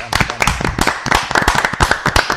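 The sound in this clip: Audience applause during a talk about women joining human-tower building teams: dense, rapid hand clapping that stays loud and steady from start to finish.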